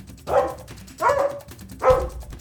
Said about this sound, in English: When everyone caught up with Frisky, they saw he was in front of a section of the wall where there was a bookcase and was barking furiously.